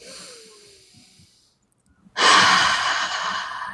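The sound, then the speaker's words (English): A deep breath taken during a guided tapping exercise: after a quiet pause comes a sudden, loud, breathy exhale that rushes in and holds steady to the end, with softer faint breathing before it. “So you at home, plug in how long it's been for you. Deep breath.”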